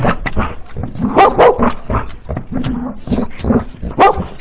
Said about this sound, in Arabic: ابعد الكلب ده بعيد عني.